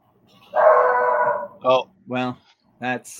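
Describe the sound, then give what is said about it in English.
A dog lets out a long, drawn-out howl, then gives three short, sharp barks spaced apart, all fairly loud with no other sound around them. “That's a dog.”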